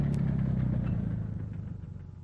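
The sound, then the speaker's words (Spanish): Engine rumble of a vehicle on a road, a low, steady motor drone that gradually grows fainter over about two seconds. “Aminora su paso al oír aquel sonido, echándose al borde del camino para cederle al paso a aquel vehículo que siente aproximarse.”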